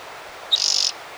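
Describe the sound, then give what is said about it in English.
A single bird calls outside: one sharp high note, then a rapid, even trill of many quick pulses lasting under half a second, standing alone over faint background hiss. “Maybe two birds out there. Eight. Nine. No, one bird.”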